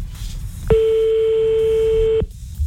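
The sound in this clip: A telephone ringback tone sounds on a call that nobody picks up: one steady, mid-pitched electronic tone lasting about a second and a half, then it stops, over low background noise.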